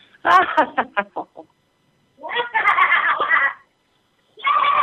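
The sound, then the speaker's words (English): A goat bleats in a quavering, pulsed cry lasting about a second. People then talk over two longer stretches. “The fuck is that? See, they're devil like people. A goat. They're devil people. Yeah, it's a goat too, right? You got a goat over there”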